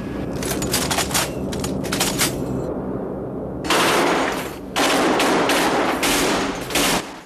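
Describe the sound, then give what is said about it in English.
Rapid machine gun fire from a bomber's defensive guns being test-fired, loud dense bursts of shots with a brief lull near the middle, then further sustained bursts, with no talking. “Okay, let's test our guns.”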